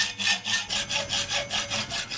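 Hand sawing through steel stock for a handmade frame, worked entirely by hand instead of with a power saw: a steady, even run of rasping back-and-forth strokes, fairly loud, with no voices.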